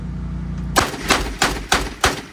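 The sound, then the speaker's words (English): Gunfire from an AI-powered machine gun that tracks and shoots down drones: five sharp, loud reports at a steady, quick rhythm, starting after a low mechanical hum. “That is the Bullfrog, an AI-powered machine gun that tracks and shoots down drones.”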